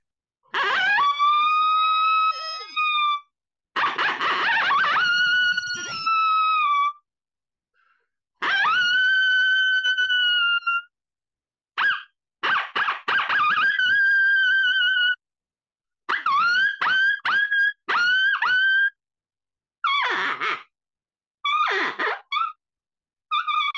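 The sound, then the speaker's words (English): Sharp, high-pitched howls from a small handheld howler call, built for a younger-sounding pitch than a bigger howler. It gives a series of long harmonic wails, then shorter, quicker yips and barks, loud and with no talk. “Now the bigger howler, the reason I designed a smaller howler was because I wanted a little sharper pitch to get the younger sound.”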